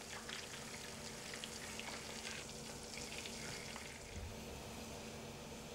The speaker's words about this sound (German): Der Koch gart die Saiblingsfilets in dem Holunderöl.